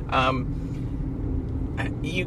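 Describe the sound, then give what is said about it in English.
Steady low engine and road rumble from inside a car being driven home, running without a break beneath short bursts of a person talking. “I'm driving home right now, hands-free, and somebody on their bike just rode right in front of me.”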